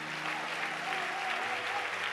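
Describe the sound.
A church audience applauds in praise during a sermon. The clapping is steady and unbroken, a dense, even wash of many hands from start to finish.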